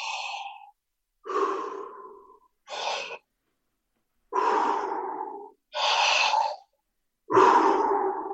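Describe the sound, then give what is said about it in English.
Deep breathing with a slow, unforced exhale: six long, airy breaths, inhales and exhales, separated by short silent pauses at an unhurried, even rhythm, fairly loud and with no talking. “So notice that the exhale isn't forced out. I leave a little in there. The inhale is as big as you want.”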